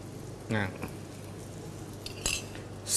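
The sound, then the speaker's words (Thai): Metal clinks from a frying pan on a stove as a little oil goes in for stir-frying holy basil pork, a few sharp clanks standing out over a faint, steady background hiss. “ขออนุญาตใช้กระทะใบนี้นะฮะสลับให้น้องอ้อนได้ผัดฮะเดี๋ยวน้องอ้อนเปิดไฟนะครับใส่น้ำมันเล็กน้อยเหมือนเดิม”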